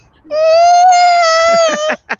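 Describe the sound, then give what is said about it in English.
A teething baby girl fusses with one sustained, steady-pitched whining cry that lasts more than a second and then breaks off, followed by brief faint fussy sounds. “She's got a couple of teeth right now, so she's a little fussy.”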